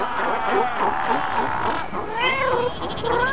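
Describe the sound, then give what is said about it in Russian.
A large fur seal rookery with many seals calling at once: overlapping wavering, bleating cries. The cries rise and fall in pitch over a continuous dense murmur. “Не кот, а котик. Морской. Их тут очень много. Где-то рядом большое лежбище, слышите?”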